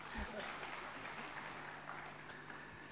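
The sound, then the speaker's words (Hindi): An audience applauds at a gathering, producing a steady wash of clapping that runs throughout at a fairly faint level, slightly stronger at the start. “तालियां बजा दो।”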